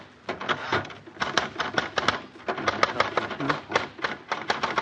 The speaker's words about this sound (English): give me your card, and I'll type it up for you, just like I did Molly's. There we are. Now, let me see. Type.